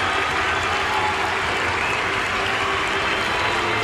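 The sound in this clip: Crowd at Wrigley Field cheering and applauding to welcome a batter at a September 1988 baseball game, a dense, loud, continuous wash of clapping and cheering that holds steady throughout.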